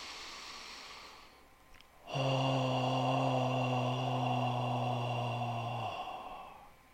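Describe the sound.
A deep breath is drawn in during a heart-focused breathing exercise, followed by a long voiced 'haw' exhalation. The exhalation holds a steady pitch for about four seconds, then fades out.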